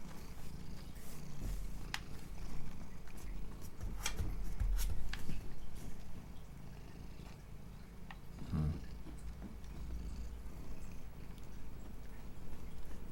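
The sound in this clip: A cat purrs on a table with a faint, steady, low rumbling drone, broken now and then by a few soft clicks and knocks.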